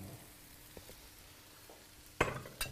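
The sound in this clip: Pieces of fish frying in a pan give a faint, steady sizzle, broken near the end by a few sharp clatters.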